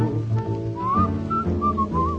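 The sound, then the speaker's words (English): A person whistles a lilting tune in clear, wavering notes that slide and hop between pitches, carried over low instrumental backing in a song. “I'm whistling, looking at a lovely moon.”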